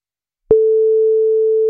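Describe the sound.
A telephone ringback tone on an outgoing call: after half a second of silence, a single steady pure tone begins and holds at even loudness to the end.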